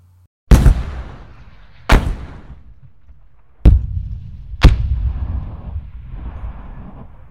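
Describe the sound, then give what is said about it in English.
Four heavy blasts from a Gustav weapon being fired, each a sharp, loud crack followed by a rumbling decay, at uneven intervals with quiet gaps between them. “Here's a clip of the Gustav being fired.”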